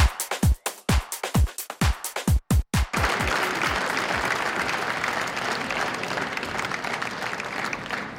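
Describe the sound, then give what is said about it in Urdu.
Applause opening a Sufi music concert in the United Nations General Assembly hall in New York. A rapid run of sharp, loud rhythmic strikes gives way after about three seconds to dense, steady clapping from a crowd that continues to the end. “تالیوں کی گونج اور ملی نغمے پر مبنی دھن سے new York میں اقوام متحدہ کے جنرل اسمبلی ہال میں صوفی میوزک کانسرٹ کا آغاز ہوا۔”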